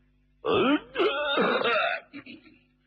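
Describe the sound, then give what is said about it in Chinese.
A voiced throat clearing, performed by a storyteller as a character's cough, comes as two loud harmonic bursts followed by a few shorter, softer ones. “曾国藩就咳嗽了一声”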